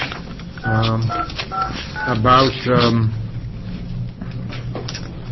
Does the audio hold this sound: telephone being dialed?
yes